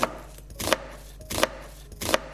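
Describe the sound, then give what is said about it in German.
A knife chops a large batch of onions for lasagne, giving a few sharp, crisp chops at a slow, even pace with quiet pauses between them and no talking. “Dafür schneidest du gerade Zwiebeln. Ganz viel Zwiebeln.”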